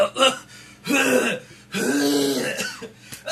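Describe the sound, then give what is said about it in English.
A person makes choking, strained throat-clearing and gasping noises as their throat seems to collapse in on itself, a few harsh, rasping bursts separated by short pauses. “What just happened to my throat? It, like, collapsed in on itself.”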